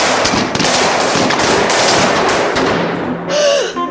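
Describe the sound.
Rapid gunfire erupts during a tense drama scene of a house break-in. A loud, dense volley of many shots cracks almost without a break for several seconds.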